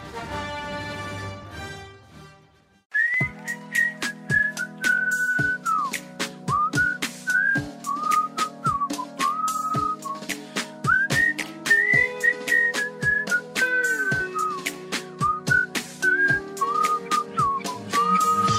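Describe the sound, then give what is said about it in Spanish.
Whistled melody opening a song, bright and tuneful, gliding between notes over a steady beat of sharp percussive hits, after a brief, fading tonal intro of a few seconds. “hay algo que me molesta de los chiflidos que se utilizan al principio de la canción”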